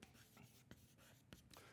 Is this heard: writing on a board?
yes